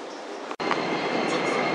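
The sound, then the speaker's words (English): Subway train arriving at a station with platform screen doors, a steady, loud rumbling roar of the rail car with a momentary dropout near the start before the noise resumes evenly. “开往八宫方向的列车将要进站，请您不要倚靠屏蔽门。”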